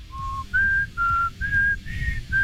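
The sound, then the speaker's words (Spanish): A person whistles six clear, sustained tonal notes in a steady rhythm. The first note is lower and the following ones sit higher, with the last note cut short. The whistling is loud and heard alone. “¡ay, se me salió el chiflidín!”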